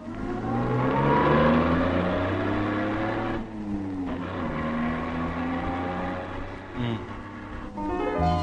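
A car engine revs as the car drives off. The engine note climbs in a few loud surges, each broken by a short dip, and keeps a steady throaty drone between them.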